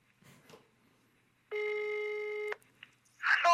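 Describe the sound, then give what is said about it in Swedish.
A telephone ringing, heard as one steady, buzzy ring tone of about a second, with faint rustling before it and a louder burst after it. “Du får ta fram ett nummer och ringa dig själv.”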